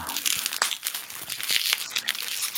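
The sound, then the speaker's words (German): Plastic bubble wrap handled during unpacking, giving a steady crinkling and rustling with a few sharper crackles, fairly loud and heard on its own. “Oh, schon wieder Knackfolie.”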